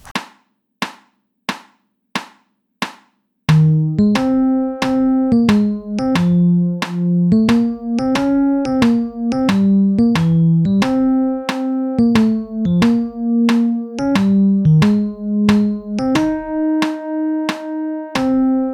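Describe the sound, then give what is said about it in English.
Metronome clicking on every beat at 90 beats per minute for a musical exercise in triple time: a few sharp, even ticks sound alone, then the clicks continue steadily beneath a melodic line of plucked, ringing notes. “So step one is play the exercise with a click on every beat, and it sounds like this.”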